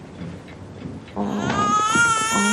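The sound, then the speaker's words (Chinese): An infant cries in a home as a mother soothes it; after a quiet, faint first second the crying breaks into steady, high wailing that continues to the end. “来， 不哭不哭啊，妈妈抱。”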